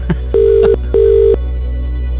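A telephone ringback tone sounds while a prize winner is being called: two steady, identical buzzing tones in quick succession form one double ring, over a constant low hum.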